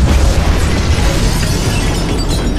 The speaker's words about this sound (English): Fire the Mega Proton Beam!